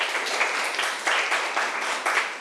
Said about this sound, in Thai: เก่งมากปรบมือให้เพื่อนหน่อย